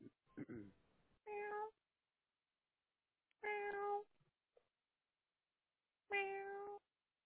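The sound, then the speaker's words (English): A human voice imitating a cat on a phone call, making three drawn-out, nasal meows at fairly even intervals, with a few short scraping noises before the first. “Meow. Meow. Meow. Meow. Meow. Meow. Meow.”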